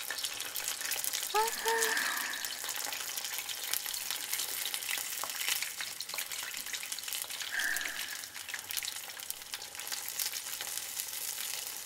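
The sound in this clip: A large homemade kakiage tempura fritter deep-fries in hot oil. A dense, even sizzle and crackle runs unbroken for the whole clip at moderate loudness.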